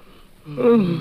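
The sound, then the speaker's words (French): A person yawns, a drawn-out breathy sound that starts softly and swells into a louder open-mouthed, voiced groan in the second half. “Et là, je vais pouvoir bailler tranquillement.”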